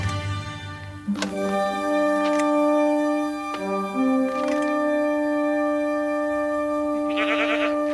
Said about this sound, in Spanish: Mira a la cabra.